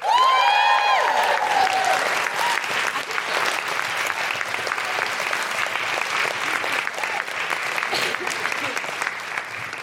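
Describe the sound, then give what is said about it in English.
Audience applause and cheering as a speaker is introduced at a talk event: high whooping shouts open over loud clapping, then steady sustained applause continues for about ten seconds. “Put your hands together and make incredible woohooing noises”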